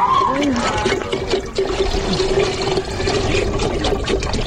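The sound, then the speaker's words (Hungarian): Water is poured from a can holding a day's ration into a pot for cooking in an African refugee camp. It is a steady, continuous splashing trickle with murmuring voices in the background. “Egy afrikai menekülttábor hangjait hallották, és azt, ahogy egy egész napra kiadagolt kanna vízből töltenek a főzéshez.”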